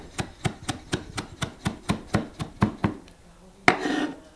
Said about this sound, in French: Alors là, je vais hacher l'ortie.